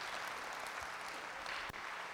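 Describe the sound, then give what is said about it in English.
A church audience claps together in a dense, steady burst of applause that holds at an even level throughout, with no voices rising above the clapping. “Give me one more hand clap all over the house.”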